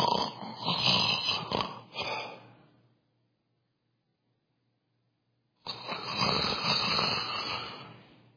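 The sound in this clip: A voice imitates snoring, giving two long, loud, rasping snores separated by a few seconds of silence.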